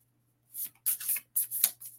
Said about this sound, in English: Whoa, we don't need all these cards just jumping out.